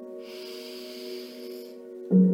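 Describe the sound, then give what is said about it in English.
A slow, deep breath in, heard as a soft airy hiss over a sustained low drone. A voice comes in just after the inhale ends. “let's take a nice deep breath in together as we settle into this space.”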